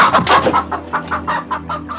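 Farm hens cluck in a quick, uneven run of many loud, throaty clucks, with a low steady hum underneath.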